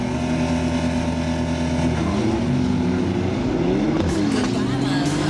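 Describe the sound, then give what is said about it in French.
A rear-wheel-drive Porsche launching hard from a standing start with launch control: a loud, continuous engine roar whose harmonic tones shift in pitch. “Je suis parti très très fort ouais, sur ce coup-là parce que je vois avec le launch control chez Porsche, c'est quand même pas mal.”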